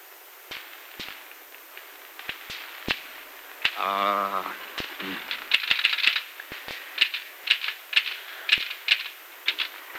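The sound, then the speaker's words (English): A typewriter clacks as a letter is typed out, full of typing errors. Many sharp keystrokes come in an irregular rhythm, clustering more densely in the second half. “But I filled it in by trying to type out a letter, which is also filled in with typographical errors.”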